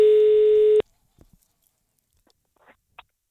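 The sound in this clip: A telephone ringback tone sounds after a number is dialed: one steady, buzzy, mid-pitched tone lasting under a second that cuts off abruptly, followed by near silence with a few faint clicks.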